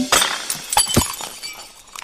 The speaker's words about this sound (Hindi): अरे ये अचार का बर्तन कैसे टूट गया?